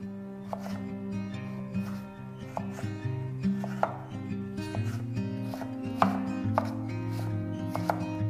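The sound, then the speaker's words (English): A knife finely chops a carrot for soup, with many crisp, evenly spaced strikes in a steady rhythm. “One carrot, finely chopped.”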